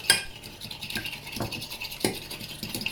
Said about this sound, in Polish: Mieszam jajka z solą i pieprzem przy pomocy widelca.